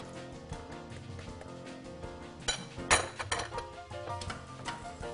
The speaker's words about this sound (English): so I am just stirring up these eggs. You can see that all the cheese is getting incorporated in.